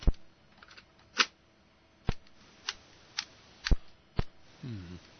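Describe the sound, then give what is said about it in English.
A balky tape recorder is handled: several sharp mechanical clicks and clacks at uneven intervals, quiet in between, with a short low buzzing at the very end. “Few more interviews from the street now. Assuming I can get this tape recorder to work,”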